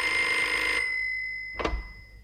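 Telephone ringing with a bright, steady electronic tone that stops abruptly after under a second and fades out. A single sharp clunk follows.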